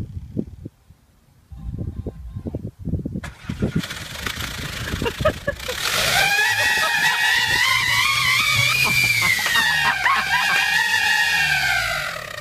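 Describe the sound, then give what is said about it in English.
A car started with about 20 novelty noisemakers jammed into its exhaust pipe: a few low thumps first, then a loud, sustained, wavering chorus of honking horn tones blaring over the engine's rumble. “What happens if you were to take about 20 of them and jam them into the exhaust pipe of an automobile and then start the car? Fun. Yeah, it's fun. It sounds like this.”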